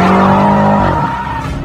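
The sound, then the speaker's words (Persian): A car spins through a full turn and changes direction. A loud, continuous tire squeal and engine roar hold a steady tone, then break into rougher, uneven noise. “جان با ماشین یه دور کامل میزنه و مسیرش رو عوض میکنه.”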